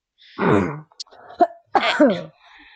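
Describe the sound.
A man gives a throat-clearing cough as two loud, rough, voiced bursts with a couple of short clicks between them, ending in a faint trailing rasp.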